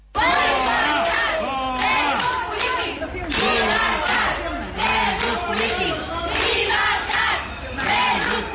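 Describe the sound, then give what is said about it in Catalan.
A crowd of medical staff at Hospital de Sant Pau in Barcelona receives Spanish prime minister Pedro Sánchez with loud, sustained shouting and chanting. Many voices rise and fall together without pause from start to end. “I aquesta que senten és la rebuda que li ha fet el personal mèdic de l'Hospital de Sant Pau a Barcelona al president del govern, Pedro Sánchez, en la seva visita a Llampec, a la capital catalana.”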